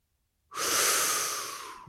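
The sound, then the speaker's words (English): One sharp inhale of breath bursts in after a moment of silence. It is a loud, hissing rush of air that holds for over a second and then slowly tapers off. “there's only one thing left to do, and that is inhale a hot breath”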